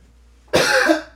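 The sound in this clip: A single loud, harsh cough to clear phlegm from the throat. It bursts out suddenly after near-silence and holds a raspy, wet texture briefly before easing off.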